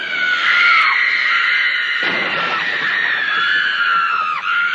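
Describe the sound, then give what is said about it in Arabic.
A young girl screams for help at home, loud enough to wake her father. Her voice is one long, shrill, high-pitched scream that stays strong throughout, with only brief dips and wavers. “هذا أبو استيقظ من نومه فزعا خائفا على صراخ في بيته، فمن كان الصارخ المستغيث؟ لقد كانت بنيته الصغيرة.”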